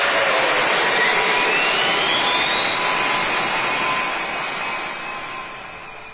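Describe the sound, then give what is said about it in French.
Giant robot spacecraft taking off, a loud jet-like roar with a whistling tone that climbs steadily in pitch, the blast slowly fading toward the end. “Tu peux décoller quand tu veux.”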